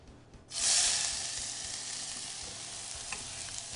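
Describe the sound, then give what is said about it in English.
Leeks sizzle as they hit hot oil in a pan, a sudden burst of loud frying that settles into a steady crackling hiss, with no talk. “So in goes the oil, rolled around the pan, and I'm going to add my leeks.”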